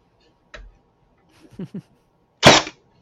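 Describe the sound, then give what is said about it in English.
An electric staple gun driving a staple into a wooden ammo can insert: a soft click and a couple of small taps, then one sharp, loud snapping burst near the end, with near silence between. “I really like using staples. Whoops. Ah. And staples hold a little bit better. Oh, if I turn the gun on, it helps.”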